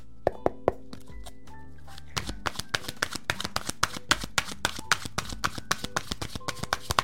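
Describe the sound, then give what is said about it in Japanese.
A deck of oracle cards is shuffled and drawn, giving crisp, sharp tapping and riffling clicks. A few sparse taps come first, then a fast, dense run of many clicks continues to the end, with faint sustained tones underneath. “はい、こちら、せーの、よいしょ。お、スタートアニューのカードが出てきました。”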